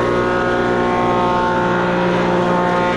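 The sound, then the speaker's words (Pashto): Woodworking machines cutting wood in a carpentry workshop, a loud steady motor drone with humming overtones running without pause. “د ترکانی یا نجاری په دغه کارخونه کې نعمت الله سره نور للسو زیات کسان کار کوي. څوک په ماشینونو لرګي رکوي،”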